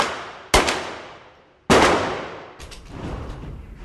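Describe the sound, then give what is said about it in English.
Gunfire at the Blue Ridge Arsenal shooting range and gun shop in Virginia: two sharp, loud shots about a second apart, each with a long fading tail, followed by a softer, sustained rumble. “And it begins at this shooting range and gun shop, the Blue Ridge Arsenal in Virginia, about 40 miles south of Washington, D.C.”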